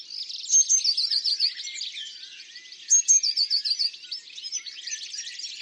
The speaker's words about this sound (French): Et voilà son chant. Très simple. C'est comme un petit éclat de rire.